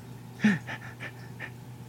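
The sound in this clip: A person panting in imitation of a dog: a few short, breathy puffs in quick succession, faint and soft, with the first the strongest.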